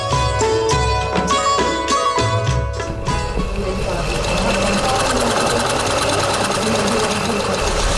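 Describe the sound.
Sewing machine stitching: a fast, rhythmic clatter of needle strokes that runs into a dense, continuous whirr. Speech is heard over the machine.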